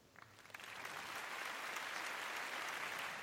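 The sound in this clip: Studio audience applause greeting a guest on a show: a few scattered claps swell quickly into full, steady applause that continues to the end.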